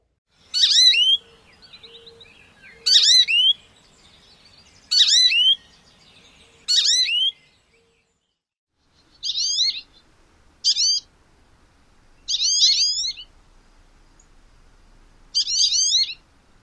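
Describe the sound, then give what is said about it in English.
An American goldfinch gives eight wheezy, rising siree calls, each short and high-pitched and set apart by pauses. The first four are louder than the rest, with nothing else heard behind them. “American goldfinch has another important call, which is a rising siree. We heard it briefly in the previous track, but let's listen again.”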